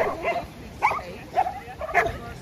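A water dog barks in a few short, high, yelping bursts spaced about half a second apart. The barks are fairly faint, with no talking.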